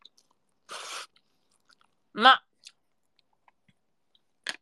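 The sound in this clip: Soba noodles being eaten: a short, soft slurp, then a brief voiced hum and a few faint clicks, quiet and sparse.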